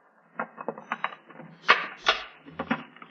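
Faint metallic clicks and small rattles as a key unlocks a trunk and its lid is opened, a series of light clatters with a soft low thud near the end.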